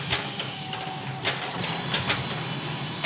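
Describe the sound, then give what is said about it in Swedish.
A jetpack starting up in a James Bond video game during a Dr. No mission, a sustained mechanical buzzing drone with a brief steady tone early on, punctuated by several short, sharp bursts. “För att skaka lös, ska jag prova att starta jetpacken då. Där är den.”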